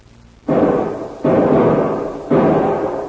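Three loud rifle shots ring out in a radio drama, each with a sharp onset and a long fading tail, at irregular intervals and with no talk.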